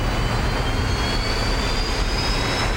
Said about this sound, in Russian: На панели загорается зеленый сигнал, капитан отпускает педаль тормоза, самолет резко трогается с места.